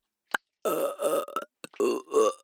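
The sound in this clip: Deliberate burping: several drawn-out, low, voiced belches in quick succession, with a brief click before them and no talk.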